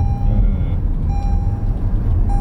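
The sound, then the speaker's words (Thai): A car's reversing warning beeps as it backs up. The beeps are steady mid-pitched tones of less than a second that repeat a few times at intervals, sitting faintly above a loud, low, continuous rumble. “คาดมันเตือนข้างหลังไงอ๋อปลอดภัยไว้ก่อน”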